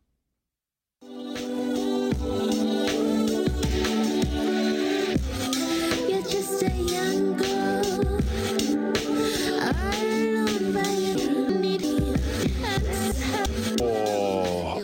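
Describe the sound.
A song from a prize-winning Canadian album begins after a second of silence, then plays at steady loudness with a pulsing low beat and layered sustained tones.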